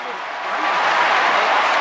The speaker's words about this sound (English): Screaming and roaring for their champion.